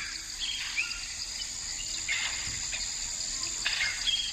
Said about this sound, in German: In den Mangroven bis zum Bauch im Wasser. Jagdfieber. Hör nur.